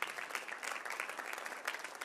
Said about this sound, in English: That's a good place to clap right there.